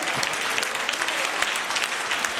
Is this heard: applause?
yes